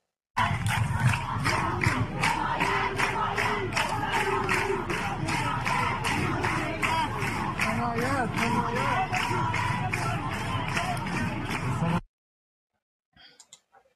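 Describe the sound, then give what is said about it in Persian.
A crowd stomps feet and claps hands together in Viking style, a fast steady beat from many people with voices chanting along, then breaks off abruptly, leaving a brief faint scrap of noise near the end. “این وایکینگ های اسکاندیناوی که هم پا میزنن هم دست میزنن. اون میگن واقعا طرف مقابل وحشت میکنه، هم پا بزنید هم دست.”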